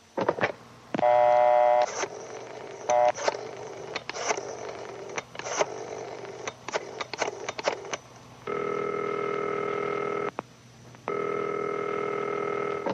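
A telephone is dialed with a run of short clicks and tones. Two long, steady ringing tones follow, separated by a brief pause.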